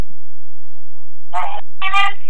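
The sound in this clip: Telephone line ringing for an incoming call, two short buzzy ring bursts in quick succession after near silence, with a faint steady tone underneath.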